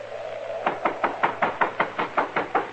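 Knocking on a door: a quick, steady run of many sharp raps, evenly spaced and fairly loud, with no voices over them.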